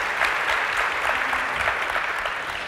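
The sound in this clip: An audience applauds to welcome a speaker, a steady dense wash of clapping that holds level and then eases off slightly toward the end.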